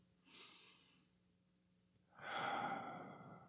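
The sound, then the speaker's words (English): Quiet human breathing: a soft, airy breath comes first, then after a pause a louder, longer, rougher breath that carries on to the end. “Listen to me breathe.”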